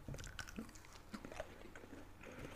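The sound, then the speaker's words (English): Faint crunchy bites and chewing on a sugar-coated Hawaiian coconut treat shaped like red puff balls, with a few sharp crisp snaps over soft, steady mouth sounds. “Inside is just white coconut. So good. Tastes like what I would think it would taste like.”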